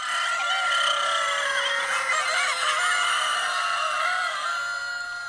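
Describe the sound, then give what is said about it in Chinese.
Many chickens cluck and squawk loudly in a henhouse of about 360 birds kept in four-tier stacked cages. The dense, overlapping chorus carries on without a break. “听到这个声音，您就知道我们来到了一间鸡舍。这里是全场最热闹、最有味道的一个赛道，360只鸡，四层叠层笼养”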